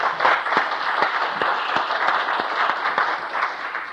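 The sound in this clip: Applause in a legislative chamber welcoming a guest, a steady wash of many hands clapping that holds at an even level for about four seconds, with individual claps standing out.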